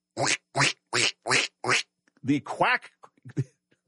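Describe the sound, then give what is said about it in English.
A duck-quacking sound effect plays from a cell phone in a pocket: five evenly spaced, nasal quacks, followed by a voice speaking. “the quacking was not coming from his mouth, but was coming from his cell phone. And it kept interrupting him. Quack, quack, quack could be heard coming from the secretary's pocket.”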